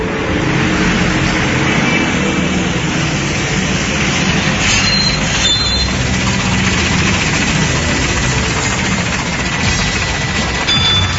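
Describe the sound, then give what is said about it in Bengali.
Military vehicles outside give off a heavy, continuous engine rumble with a broad noisy roar that stays steady throughout, and no one speaks. “বাইরে মিলিটারিদের গাড়ি।”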